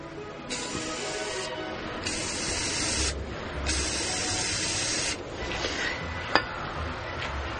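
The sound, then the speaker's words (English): Three long, steady hissing blasts of Aqua Net hairspray sprayed into the combustion chamber of a plastic pipe device, with short pauses between them, then quieter handling noise and one sharp click. “The next step is 3 1-second blasts of Aquanet hairspray into the combustion chamber.”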